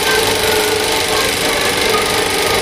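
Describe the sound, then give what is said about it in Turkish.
An antique 35 mm cinema film projector runs in a projectionist's room that has been turned into a museum. It gives a loud, steady mechanical whir with a dense rasping clatter, continuous throughout and with no voices. “Şenevi'nin müzeye çevirdiği makinist odasının ortasında bir antika duruyor. Sinema projektörü, üstelik halen çalışıyor.”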